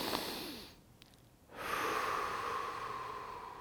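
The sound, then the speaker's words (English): A deep breath in and a slow release during a five-finger breathing exercise for meditation: two soft, airy breath sounds separated by a short pause, the second one longer, heard faintly and alone. “we take a deep breath in, and we release it”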